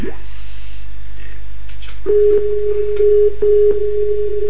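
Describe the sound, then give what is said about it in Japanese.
A telephone line tone sounds after a call is cut off to redial. A steady, low-pitched electronic beep starts partway in and continues with a few short breaks over a low background hum. “一回切っていいですか。もう一度かけ直しますんで、すみません。”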